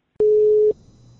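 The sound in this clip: A single steady telephone tone lasting about half a second follows a receiver being hung up on a call, then fades into a faint low hum.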